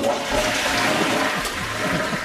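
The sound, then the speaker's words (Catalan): A toilet cistern empties as it is flushed with a pull chain, giving a loud, steady rush of water that continues for about two seconds without a break. “cadena és un dispositiu de vàter per buidar l'aigua d'un dipòsit”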